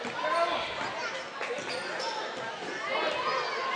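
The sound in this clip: Basketball dribbled on court during a Holly Pond vs Vinemont game, with a few dull bounces under steady gym noise and a voice talking over them.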